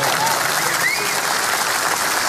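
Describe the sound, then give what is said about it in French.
Audience applause at a comedy show in Belgium, a steady, dense wash of many hands clapping at even loudness throughout the short stretch. “Bravo, vous pouvez applaudir si vous voulez.”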